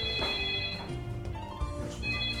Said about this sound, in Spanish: ¿Y ese teléfono? ¿Es del más allá o del más acá? Dios, sigue hablando, ¿dónde está el teléfono?